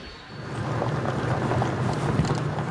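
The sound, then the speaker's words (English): A military vehicle carrying Yemeni government forces drives through the valleys of Taiz toward the front line, producing a continuous, dense rumble of engine and road noise mixed with wind buffeting, with no distinct separate events. “We're driving through the valleys of Taiz with the Yemeni forces, heading towards the front line.”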